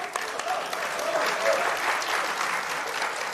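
Audience applause welcoming a performer onto the stage at a Chinese crosstalk comedy show, a loud, continuous wash of clapping that swells slightly in the middle and stays full throughout.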